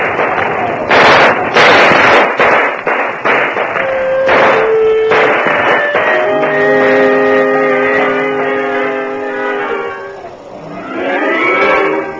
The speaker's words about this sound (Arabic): اضرب رصاص كمان. اضرب رصاص.